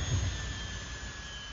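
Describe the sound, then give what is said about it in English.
Spaceship sound effect for entering an atmosphere and landing: a steady, jet-like roaring rumble with faint sustained high tones, fairly quiet and unchanging throughout. “Entering atmosphere. Prepare for landing.”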